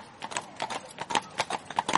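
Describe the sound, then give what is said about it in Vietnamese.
Horse hooves galloping on snow, many quick clopping beats falling in rhythmic clusters, moderately loud and steady throughout, with no voices. “Tiếng vó nện xuống nền tuyết vang vọng thật xa.”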